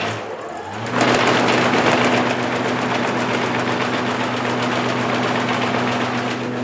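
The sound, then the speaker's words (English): A scalping machine cleaning conifer seed, stripping out needles, cone scale and large debris, starts up after about a second into a loud, steady mechanical drone with a low hum and fast rattling pulses. “We call it a scalping machine, and it removes a lot of the large debris, needles, and cone scale.”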